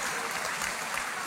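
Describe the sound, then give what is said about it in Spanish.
Women in the audience applaud softly, a faint, even patter of clapping hands holding steady across the short stretch. “Y las mujeres están aplaudiendo ahorita, ¿ok?”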